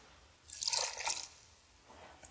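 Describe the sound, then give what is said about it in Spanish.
Two cups of water poured into a pot for cooking squash, a brief splashy pour of under a second that trails off into quiet, faint overall. “te voy a pasar 2 tazas de agua para que coloques en el interior.”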